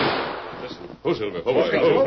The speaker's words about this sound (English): Oh, those are rifle shots. Shots come from back of ridge.